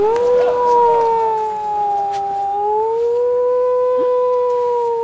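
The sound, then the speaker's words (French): A siren wails loudly as a whole island goes on alert. Its steady tone dips slightly and then climbs again in a slow, drawn-out wail over a rough, noisy background. “T'as entendu la sirène, hein? Bah, toute l'île est en alerte.”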